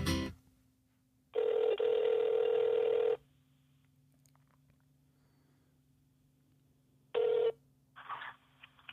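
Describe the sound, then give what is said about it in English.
A phone call being placed: a sharp click, then a steady electronic tone lasting about two seconds, silence, a second short tone and a brief burst of noise. “let me give him a call to see how he is.”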